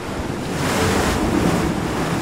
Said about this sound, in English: It's a place between two worlds, half land, half liquid, battered by the waves